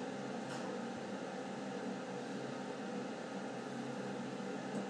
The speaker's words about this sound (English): There's a fan running in each of the elevators, I guess to keep it cool.